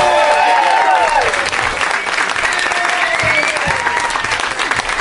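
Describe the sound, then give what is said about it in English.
Warm applause from a packed house at the UCB Theater: dense, sustained clapping with scattered cheering voices throughout. “Holy crap, that is a very, very warm, warm Christmassy welcome. I'm so excited to be here in front of this packed house at the UCB Theater”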